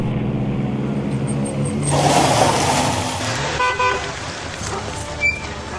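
Engine noise of a car pulling over by the roadside near a crash where another car went into the trees, with a few short horn-like toots over a low rumble.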